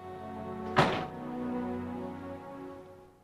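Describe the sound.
A door closing with a single dull thunk: one short, heavy impact, followed by a low, steady tonal hum that slowly fades.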